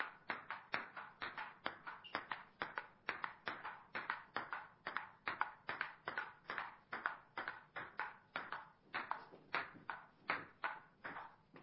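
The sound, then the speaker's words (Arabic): Table tennis ball bouncing in a 2010 table tennis video game, many crisp, evenly spaced taps in a brisk, steady rhythm that carries on throughout, with no voices. “لعبة شعبية؟ لعبة تنس الطاولة 2010.”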